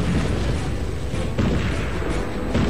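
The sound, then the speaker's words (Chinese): A massed artillery barrage as hundreds of guns fire together on the Fujian front in 1958: a dense, unbroken roar of overlapping booms, with a few sharper blasts standing out from the continuous rumble. “刹那间，福建前线炮兵459门火炮山呼海啸的发射。”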